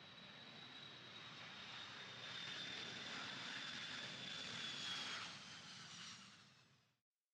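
Airplane engine drone as a plane comes in to land in Seoul: a steady, broad roar with a thin high whine running through it, swelling slightly midway before fading out at the end.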